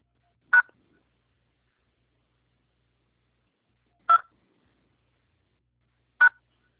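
Three short electronic tones on a phone call being transferred to a Santander bank quality-control line, each a brief clean beep separated by long silent gaps.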